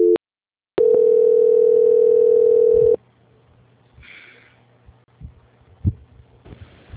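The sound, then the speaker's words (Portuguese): A telephone line tone during a call transfer: a brief beep, then a single steady, loud tone held for about two seconds, cutting off to a quiet line with faint low hum and a few soft clicks. “ligação vai ficar muda por alguns instantes até a transferência ser concluída”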